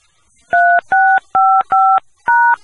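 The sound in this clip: Telephone keypad tones entering an access code: five short, steady, evenly spaced touch-tone beeps, loud and alone.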